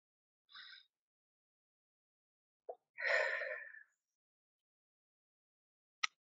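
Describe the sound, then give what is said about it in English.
A soft, deep breath drawn in over about a second, faint and alone, with a brief breathy sound before it and a small click at the end. “let's start off today by taking a deep breath to prepare our hearts for God.”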